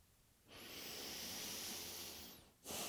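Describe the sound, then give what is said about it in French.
A soft, airy deep breath taken with eyes closed during a guided exercise lasts about two seconds, then a second breath begins. Both are quiet and hissy. “on va fermer les yeux et prendre une ou deux respirations pour faire de la place dans nos têtes”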